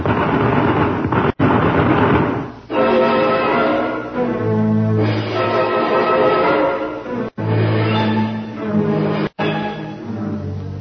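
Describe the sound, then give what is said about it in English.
Explosive bursts and gunfire from a nighttime battle in jungle woods form a dense, loud, continuous barrage of rumbling blasts, broken by a few abrupt cutoffs. “Turn the machine gun. Got him. No, they got away. Look, look there in the trees. Fire, man, fire.”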